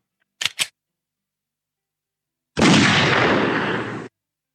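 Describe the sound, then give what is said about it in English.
A gunshot as a man shoots himself, heard as a loud, harsh blast sustained for about a second and a half before cutting off. It is preceded by two short, sharp clicks and separated from them by silence. “Oh my God, what happened? He shot himself.”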